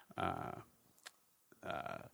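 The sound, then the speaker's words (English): A person burps after drinking a very citrusy, carbonated beer. Two low, voiced belches come with a short pause between them, and both are fairly faint. “I'm sorry, I'm so burpy. I just had a beer that was so citrusy and”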